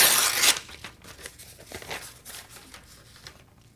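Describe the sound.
Envelope torn open with a loud, quick rip at the start, followed by softer crinkling and rustling of paper that fades out.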